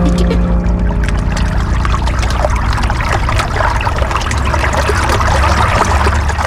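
The Loire runs past Rochecorbon, upstream of Tours, on a frosty winter day. The water makes a loud, steady rush with constant trickling and splashing throughout.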